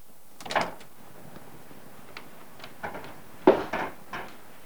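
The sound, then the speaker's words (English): An office door opens as someone steps out: soft scattered clicks and knocks, then a louder latch clack followed by a couple of lighter thumps, all fairly quiet and with no talking. “goes to the door and steps out of his office.”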